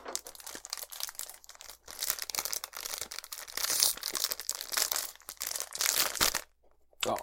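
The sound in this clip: Crinkling and crunching of a sausage snack package being torn open, a dense run of crackly plastic rustles that continues for several seconds, briefly pauses, then resumes.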